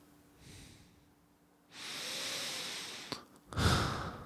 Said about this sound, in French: Je vous propose de fermer les yeux et de penser à un moment où vous étiez particulièrement bien. Respirez profondément.